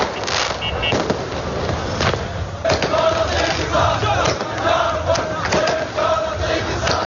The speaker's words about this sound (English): The government declared the withdrawal its Sovereignty Day. And here are the sounds of celebrations in the capital, Baghdad, on Wednesday night.